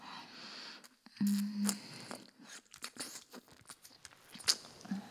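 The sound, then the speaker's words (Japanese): Wet licking and mouth sounds: irregular soft smacks, slurps and clicks in quick clusters, quiet and close, with brief pauses between. “私の舐め方結構うまいと思うんだよね。”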